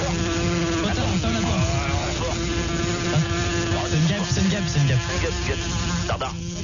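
A housefly buzzing around a room with an open door, a wavering, thin drone that weaves through a noisy, crackly background.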